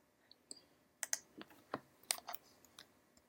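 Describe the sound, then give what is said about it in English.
Faint, sharp mouse clicks on a Windows 8 computer, several crisp taps at irregular intervals with no talk. “I'm going to do a search for my Java control panel. So I'm going to click on search.”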